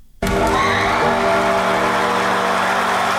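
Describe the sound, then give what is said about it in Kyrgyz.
Judges and an audience cheer loudly after a dance crew performs at a talent competition in Malaysia. The roar of whoops and shouts bursts in suddenly and stays loud and sustained. “Бул Малайзияда өтүп жаткан Азия таланттарга бай сынагында адем тобу аткарган бийден кийин кызуу колдогон калыстар тобунун жана көрүүчүлөрдүн эмоциясы.”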